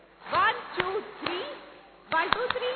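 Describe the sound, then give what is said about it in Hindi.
Audience clapping along in rhythm during a music session. A few sharp, quiet claps fall in a loose beat, mixed with a voice singing or speaking over them. “पता है संगीत में सबसे best आपकी तालियां थी”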